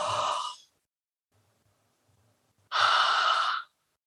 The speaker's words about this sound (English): If I say inhale and I go,